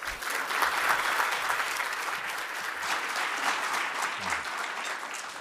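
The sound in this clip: Audience applause fills a City Club of Cleveland forum as two speakers are welcomed on stage. The clapping is a dense, continuous crowd sound that holds at an even level throughout, with no voices over it.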